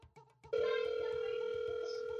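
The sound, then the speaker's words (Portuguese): A steady telephone dial tone while a call is being placed holds an unbroken, even hum for nearly two seconds, following a brief voice at the start. “tô ligando, tô ligando”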